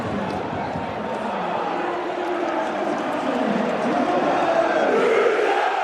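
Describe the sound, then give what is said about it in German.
A football stadium crowd roars after a Rot-Weiß Essen free-kick goal, a dense, sustained wash of cheering and shouting that holds steady and swells slightly toward the end. “Hier ist alles hochgeflogen nach einem Freistoß für Rot-Weiß Essen und dem Tor von Torben Müsel. Mal kurz reinhören. Ja, da macht das Stadion genau die Pause.”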